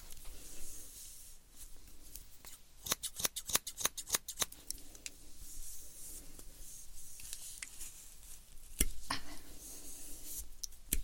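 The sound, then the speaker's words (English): Scissors cutting: a rapid run of many crisp, sharp snips, then a few scattered single snips over a quiet background. “Have to cut this one.”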